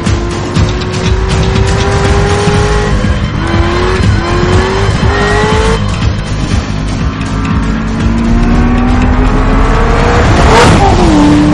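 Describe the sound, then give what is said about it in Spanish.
Chevrolet Corvette speeding down an empty road and swerving between lanes, its engine roaring loud and continuous, pitch climbing in repeated surges broken by several quick gear shifts. “El Corvette circula por una carretera sin coches y cambia aleatoriamente de carril.”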